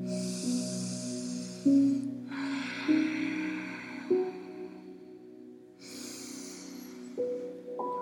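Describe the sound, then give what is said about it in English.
Deep breathing during an intense yoga pose: a few long, airy breaths rise and fade over a soft, steady background tone. “Three more breaths. Again, you can come out of it sooner if it's too much. I know it's really, really intense.”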